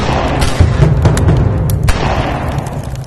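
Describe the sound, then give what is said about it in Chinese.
Gunfire from soldiers and police shooting at unarmed women workers to crush a labor strike: a few sharp cracking shots punch through a dense, loud, booming roar that continues throughout. “军警悍然向手无寸铁的沙场女工开枪，镇压工潮，死伤近百人。”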